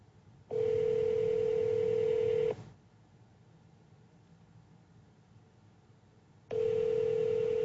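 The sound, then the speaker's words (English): A phone dialing tone plays as a steady, even note for about two seconds, then about four seconds of faint hiss, then the same tone starts again. “I'm going to try dialing it from my phone.”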